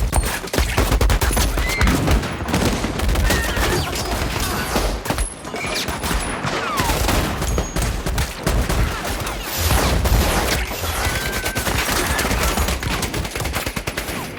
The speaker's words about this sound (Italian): E giù a sparare.